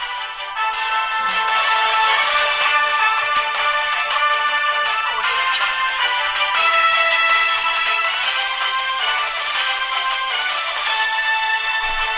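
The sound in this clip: A radio news jingle plays: a bright electronic melodic sting of sustained tones and shimmering highs. It stays loud and steady for about twelve seconds, with no voices.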